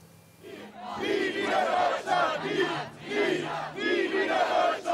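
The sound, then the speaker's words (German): A protest march of roughly 750 people through Bremen's Neustadt against the German Unity Day celebrations chants in repeated rhythmic shouts, each loud collective burst followed by a short lull. “Rund 750 Menschen ziehen aktuell laut Polizei durch die Bremer Neustadt. Die Veranstalter sprechen sogar von 1000. Sie demonstrieren gegen den Tag der deutschen Einheit und die Feierlichkeiten.”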